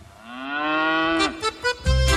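A cow gives one long, loud moo that slides down at its end, followed by a few shorter bursts of sound.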